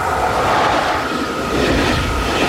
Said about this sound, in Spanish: En otro lugar, un tren recorre las vías.